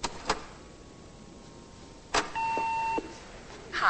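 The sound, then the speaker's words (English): A phone is dialled to check messages. A few faint handset clicks lead into a single steady electronic beep lasting under a second, followed by another click. “dials a phone and checks her messages.”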